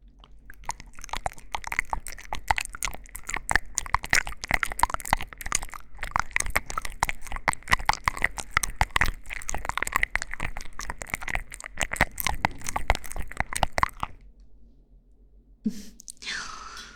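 Crunchy food being bitten and chewed in a dense, steady run of many crisp crunches for about fourteen seconds, then a quiet pause and one brief softer sound near the end, with no talking.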